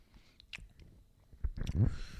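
Chewing and biting on a Kit Kat chocolate bar: a few soft, crisp bites early on, then a louder, moist burst of chewing near the end.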